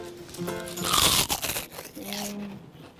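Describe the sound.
A crisp crunch of a kimchi-flavoured Korean seaweed snack being bitten, a loud burst of brittle crackling in the middle, with a voice talking before and after it.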